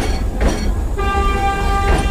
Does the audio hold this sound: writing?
no